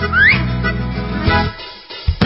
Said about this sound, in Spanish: En lugar de barba, vamos a hacer un silbido.